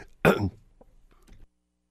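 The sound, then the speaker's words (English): One harsh, loud cough, then a few fainter throat rasps and sputters, as if a person is choking on air mid-sentence. “excuse me, going to choke myself to death here. End the 2010s in a choking fit on the air.”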